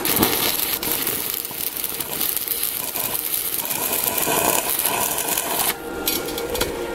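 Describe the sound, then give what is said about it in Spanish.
Stick electrode arc welding on a metal profile produces a continuous dense crackle and sizzle that stays fairly steady in loudness throughout, with a brief dip near the end. “me voy a la pieza y empezamos a soldar.”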